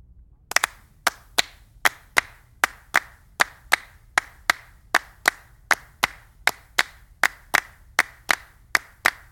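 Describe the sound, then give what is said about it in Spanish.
Palmas, rhythmic flamenco handclapping: many sharp, crisp claps in a steady even pulse of about two per second, each one a bright dry snap, played alone without voices. “Palmas.”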